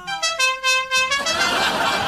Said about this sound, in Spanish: la bocina. Pongo la bocina